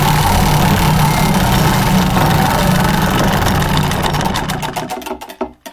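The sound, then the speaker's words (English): A prize wheel is spun for a winner drawing, its pointer making a fast, loud, continuous clatter of ticks that gradually slows into distinct clicks spaced further and further apart before coming to rest. “So let's go ahead and spin it again. Here we go. 3, 2, 1.”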